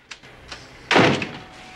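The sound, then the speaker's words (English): A door of an inner office swings shut with one solid, low thud, preceded by a couple of faint light taps. “closes the door”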